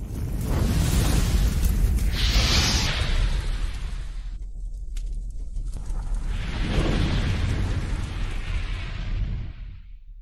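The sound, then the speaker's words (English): A voice imitates fire with two long, roaring, breathy whooshes, each lasting a few seconds and separated by a short quiet gap, with no other sound. “Can we do a fire noise because we didn't have one today? All right, let's do the fire noise.”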